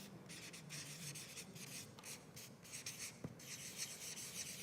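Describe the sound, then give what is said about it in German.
Handwriting being set down by hand, a steady series of short scratching and rubbing strokes. The strokes are faint and heard alone, with no voices. “Ich schreibe das hier mal auf. Hier drunter.”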